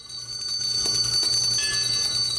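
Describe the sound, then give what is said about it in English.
Church bells ring at St. Louis Cathedral in New Orleans in commemoration of the levee breaks, a sustained, shimmering metallic tone that holds steady at moderate loudness with no voices. “By the time bells tolled to commemorate the breaking of the levees”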